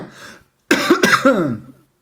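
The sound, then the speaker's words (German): A loud cough and raspy throat clearing from a person with a frog in the throat, coming as two rough bursts close together after a faint, breathy lead-in, with no talk around them. “Ich muss mal eben husten.”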